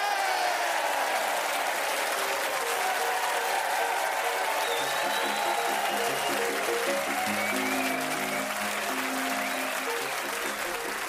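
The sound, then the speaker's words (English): A studio audience at the Radio Theatre in Broadcasting House applauds and cheers: loud, dense, sustained clapping with crowd noise that holds steady without a break. “And we are also grateful to this lovely audience here at the Radio Theatre in Broadcasting House for cheering us on our way.”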